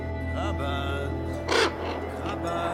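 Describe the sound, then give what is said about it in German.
Ravens cawing, eleven birds sitting on a perch: harsh, rasping calls repeat over a steady low drone, with one louder, noisy burst midway. “11 Raben saßen auf einer Stange und sahen mich an.”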